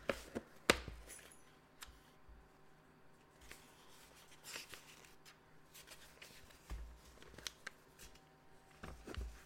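Papers being shuffled and rustled, a steady stream of soft crackling and scraping broken by a few sharper snaps, fairly faint throughout.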